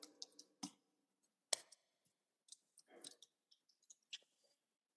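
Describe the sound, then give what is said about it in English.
Faint keyboard clicks from someone typing a search for YouTube Shorts come in irregular, sparse taps with short pauses between them. “Look him up on, like, YouTube shorts or something. He literally just makes, like, short clips. They're pretty funny. Here, I'll type it in.”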